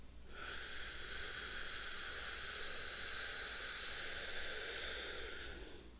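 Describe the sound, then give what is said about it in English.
Slow, deep breath drawn in through the nose: a steady, airy hiss that rises quickly and holds for about six seconds before easing off, with no other sounds. “Now, if you could hear those breaths, they might sound something like this.”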